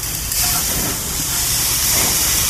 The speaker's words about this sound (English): Then I pick it up and I flip it. I'm going to do the same thing for a second here. You're going to hear it fizzle.